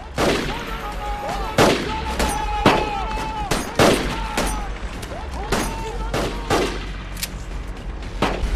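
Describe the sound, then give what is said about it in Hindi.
Gunfire cracks out during a training session for young fighters: a series of sharp, loud shots at irregular intervals while voices talk over and between them. “पागल, तुम गोली क्यों चला रहे हो? बस करो, अब कोई गोली नहीं चलाना।”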